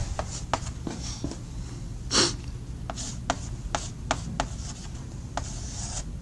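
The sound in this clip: Handwriting with a pen, sketching a block diagram: many short scratchy strokes and rubbing sounds, with one slightly louder scrape partway through.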